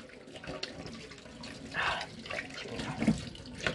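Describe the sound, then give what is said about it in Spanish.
A water tap runs while hands are washed beneath it: a steady rushing flow broken by a few louder, splashy surges as the hands move through the stream. “Déjame lavar las manos.”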